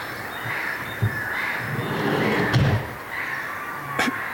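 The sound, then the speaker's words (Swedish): A sliding door is shut during a night birdsong scene in Björköby, Ostrobothnia, Finland. A few sharp knocks and thuds stand out against a steady bed of bird calls. “Någon som stängde en skjuta.”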